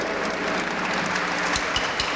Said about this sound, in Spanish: Que suene el aplauso para los hombres.